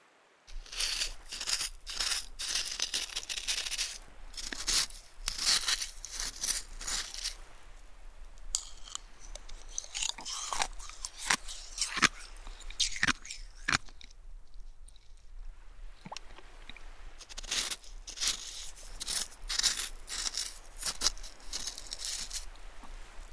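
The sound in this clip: Crisp crunching of shaved ice flavoured with strawberry and blue Hawaii syrup: many short, dry crunches in quick runs, fairly soft, with a brief lull midway and no talking.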